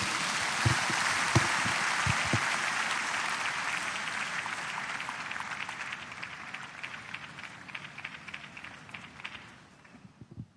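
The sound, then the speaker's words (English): A church audience applauding for the Lord during a service, sustained, dense clapping at a steady level that gradually thins and fades near the end. “Put your hands together for the Lord.”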